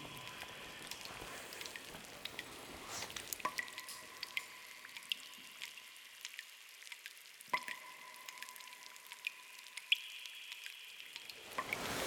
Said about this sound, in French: Tu regardes le plafond, tu verras les milliers de gouttes d'eau qui arrivent.